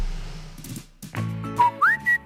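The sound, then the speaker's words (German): A person whistles a short family melody, a signature tune from Baltic Sea holidays: three clear, bright whistled notes, the second sliding upward in pitch before the last one holds steady. “Wie, pfeifen? Genau, weil erstmal handelt es sich bei der von dir pfiffenen Melodie um unseren markenrechtlich geschützten Familienpfiff während des Ostseeurlaubs.”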